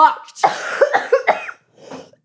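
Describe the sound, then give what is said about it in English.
A person with a persistent cough gives a loud cluster of harsh, rasping coughs in quick succession, then one softer, breathy cough after a short pause, with no talk. “Not because of the movie though, because of this cough.”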